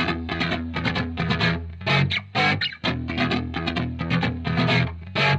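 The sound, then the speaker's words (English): Distorted electric lead guitar riff on the right channel, hitting the downbeats: loud, choppy chord strikes with a chorus-like effect repeat in a steady rhythm, with short breaks, and no voices. “If you just listen to the lead guitar part, which is the one in the right channel, it sounds like this.”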